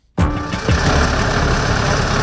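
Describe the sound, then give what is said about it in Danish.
Vehicle engines rumble as refugees from Nagorno-Karabakh drive one after another into Armenia. A loud, steady, low engine drone cuts in abruptly and continues without a break, with no voices. “køretøj efter køretøj kommer de ind i Armenien, flygtningene fra Nagorno-Karabakh”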